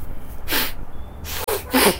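A child blows his nose hard into a handkerchief: a few forceful, snorting blasts of air separated by short pauses, loud and with no talk.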